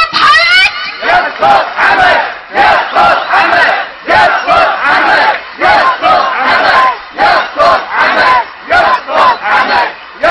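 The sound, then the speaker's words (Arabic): A large crowd chants and screams in loud rhythmic bursts, many voices shouting the same short phrases over and over with brief gaps between each surge. “انت ما تسمع حكيهم، ما تسمع هتافاتهم، ما تسمع صراخهم، ما تسمع هروناتهم.”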